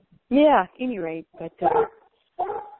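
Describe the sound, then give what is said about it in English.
A pet dog barks during a community call. A few drawn-out, tonal barks and yowls come in an uneven series, with short gaps and no talk over them. “I can see, well, there she is, she's barking. She knows what we're talking about.”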